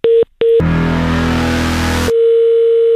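Telephone busy tone after the other party hangs up: two short steady beeps, a loud stretch of rushing noise, then a long unbroken tone running to the end.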